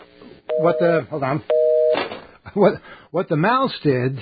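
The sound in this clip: A telephone tone sounds after a call line was cut off by an accidental mouse click, heard as two short, steady tones mixed with a talking voice.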